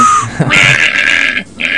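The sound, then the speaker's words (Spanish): A loud, nasal, pig-like snort, raspy and sustained, breaks off briefly and then returns in a final short burst. “Eso parece un chancho. Chancho.”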